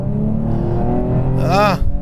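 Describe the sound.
An American car with a powerful engine drones steadily at about 60 km/h, its low harmonic hum continuous under someone talking.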